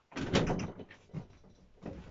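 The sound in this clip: A door is opened and someone walks through. Three muffled bursts of thuds and rustling come without any voices, the first longest and loudest.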